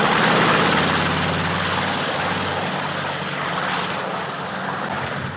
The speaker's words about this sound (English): The plane turns onto the runway.